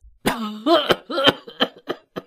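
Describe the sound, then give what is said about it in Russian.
An old washerwoman coughing as she wakes, a hoarse fit of many coughs that begins with longer, voiced rasps and breaks into shorter, sharp bursts. “Она тотчас же проснулась и закашлялась старческим кашлем.”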